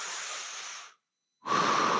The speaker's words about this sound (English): Take a big, deep breath.